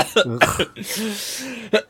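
Harsh coughing from someone who has inhaled a piece of nut shell: a few short loud coughs, then a long raspy, strained breath, then one more cough at the end.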